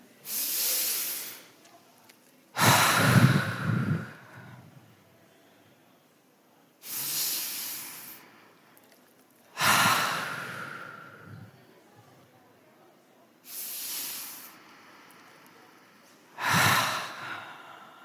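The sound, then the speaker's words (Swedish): Three deep, slow relaxing breaths taken together by a group during a relaxation exercise, each an airy hissing inhale followed by a longer, softer sighing exhale, with quiet pauses between. “Ska vi ta 3 djupa andetag och bara känna om vi kan gå härifrån bara superavslappnade”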